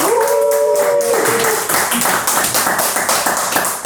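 Audience applause fills a resonant hall at Expo Galaxy in Blainville, Quebec: dense, steady clapping that stays loud for the whole clip.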